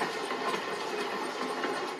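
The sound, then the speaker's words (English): A train carrying evacuees pulls into a railway station platform in Uzhgorod, making a faint, steady rolling rumble that continues evenly throughout. “after another, trains with evacuees roll in. Train Poltava-Uzhgorod is arriving to track number 3. Train Kharkov-Uzhgorod is arriving to track number 2.”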